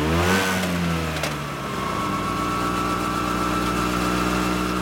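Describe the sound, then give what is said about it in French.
Scooter engine running at full speed on a road between Rome and Ostia: a loud, continuous droning motor whine that stays steady throughout, with no voices. “roulent en scooter à toute allure”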